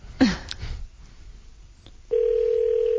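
A steady telephone dial tone sounds as a call is placed, holding one unbroken pitch for the last second after a brief burst of noise and a short quiet gap.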